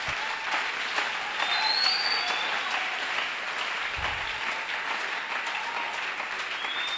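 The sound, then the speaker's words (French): An audience applauds in a dense, steady clatter of many hands that holds at an even level throughout, with no voices standing out. “On peut acclamer.”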